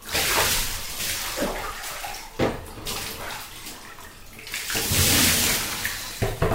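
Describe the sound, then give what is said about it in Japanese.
Tap water runs to rinse off something that still feels slippery, a steady splashing stream with surges and brief dips in strength and no talking. “じゃあ流していくよ。”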